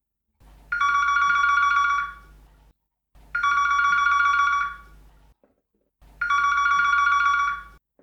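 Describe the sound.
A telephone rings in three separate bursts, each a loud, bright electric bell trill lasting over a second, with short silent gaps between them.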